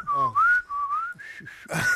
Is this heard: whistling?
yes